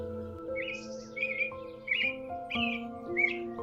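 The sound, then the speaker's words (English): Birdsong on a spring morning: a series of short, bright chirps and trills repeats over soft, sustained musical tones, fairly faint throughout. “Listen to the birds singing.”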